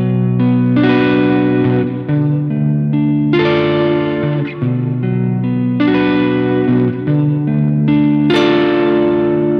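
A song from an old band project played through an Earthquake Dispatch Master multi-effects unit with modulation: loud sustained chords that shift every few seconds, washed in wavering echo and reverb, with no voices.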